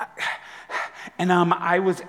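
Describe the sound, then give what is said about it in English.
A voice imitates a small child's heavy, panting breathing: a few short, breathy huffs, then a longer stretch of rapid, voiced gasping. “they're doing that heavy kid breathing thing where they're like,”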